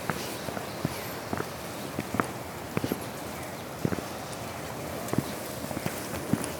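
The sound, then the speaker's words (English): Footsteps tramp through deep snow in Kanazawa, some patches knee-high, as people walk along. Many irregular, soft steps crunch along at a walking pace, fairly faint, with no talk. “Some areas it doesn't look too deep, and then some places we walk through, it's like, it's up to my knee, you know?”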